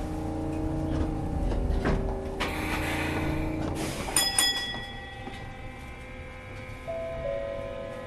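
Train doors closing on a Japanese train bound for Ōji-ekimae. A steady low motor hum runs under a long hiss of air, then comes a sharp clunk followed by sustained ringing tones.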